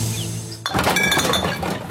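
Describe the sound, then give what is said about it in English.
Empty glass containers clink together as they are gathered for recycling: a sudden burst of rattling clinks and clatter begins after a quiet start and keeps jangling loudly to the end. “That's the sound of change adding up. Recycle Rewards gives you 10 cents for every eligible container you return.”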